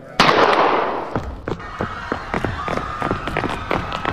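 A gunshot cracks out loud and sharp, followed by many short clattering and scuffling noises.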